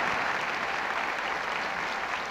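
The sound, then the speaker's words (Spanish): Audience applause follows a jazz orchestra concert at a festival, a dense, steady wash of many hands clapping at once that holds at an even loudness from start to finish. “¡Qué precioso aplauso!”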